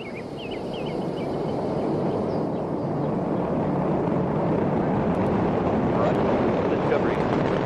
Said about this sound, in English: and liftoff of Space Shuttle Discovery, beginning America's new journey to the moon, Mars, and beyond. And the vehicle has cleared the tower.